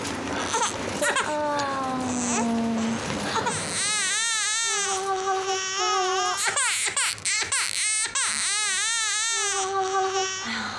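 A sick infant son cries loudly in a hospital while a nurse tends him. Repeated wailing sobs with arching, rising-and-falling pitch continue through the whole stretch with barely a pause.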